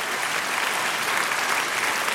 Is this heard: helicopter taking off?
no